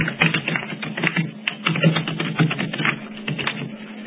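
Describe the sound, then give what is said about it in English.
Keys clatter on a computer keyboard as a title is typed in, a dense, continuous run of quick keystrokes with a slightly muffled, narrow tone and no voices over it. “yes, I'll type it in, how's that?”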